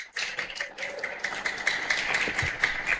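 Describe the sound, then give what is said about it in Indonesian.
An audience at a high school student-council event applauds, with sharp individual claps blending into a busy, uneven patter at moderate loudness. “Sekali lagi mari kita berikan aplaus yang luar biasa.”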